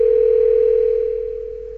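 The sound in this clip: A telephone line tone sounds as a call is placed to the US embassy, a single steady mid-pitched tone that runs without a break and fades slightly toward the end.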